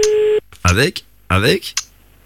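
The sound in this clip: A short, steady telephone tone sounds at the start of a radio call-in, lasting under half a second before people speak with brief pauses between their words.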